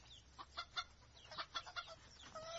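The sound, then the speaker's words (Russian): Chicken-like clucking from a black grouse hen perched on a branch above bushes: a quiet, irregular series of short, soft notes in small clusters. “Танька чуть не заорала от ужаса, а над кустами взлетела пестрая крупная птица. Села на ветку 30 метров от Таньки, склонила голову и произнесла совершенно по-куриному и с тем же идиотским выражением.”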